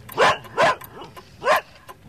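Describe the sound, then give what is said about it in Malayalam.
A dog barks three times in sharp, loud, evenly spaced barks, with a couple of softer yips between them. “നിർത്തുന്നുണ്ടോ നിന്റെ കൊര?”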